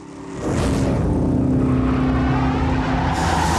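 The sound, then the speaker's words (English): A car's engine roars loud and steady as the car spins with smoke pouring from its tyres, kicking in after a brief quieter start and holding at full volume to the end. “As the car spins, more and more smoke comes from the tyres.”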